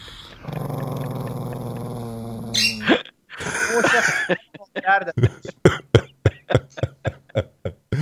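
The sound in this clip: A dog growls with a low, steady rumble for a couple of seconds as someone offers it a treat and it seems ready to attack. A voice follows, then a quick run of many short, sharp bursts.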